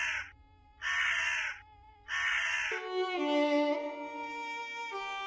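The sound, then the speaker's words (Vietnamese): A crow caws three times as it leaps from a mango branch into the sky, harsh, hoarse, evenly spaced calls, followed by soft sustained music. “Bên trên cành xoài, con quạ khẽ rùng mình rồi phóng vụt lên tầng không. Cổ họng gào lên ba tiếng khản đặc.”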